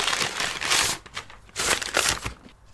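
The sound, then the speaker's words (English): Crinkling and rustling of wrapping paper as packaged beers are unwrapped, coming in a few irregular bursts of crisp, papery noise with brief pauses between them and no talk. “So, gentlemen, unwrap your beers.”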